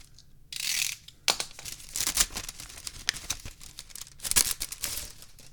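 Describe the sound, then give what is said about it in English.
A paper envelope is slit open with a letter opener, producing irregular bursts of crinkling, scraping and tearing paper, with no voices. “Get out the old letter opener. Open the envelope.”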